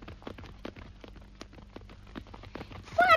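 Horse hooves clip-clop in a radio drama: a quick, steady run of light knocking hoofbeats, fairly faint, ending with a brief high tonal sound.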